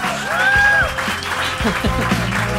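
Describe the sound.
Applause from a live audience in an auditorium during a concert evening, a dense, steady wash of clapping with a voice speaking over it throughout.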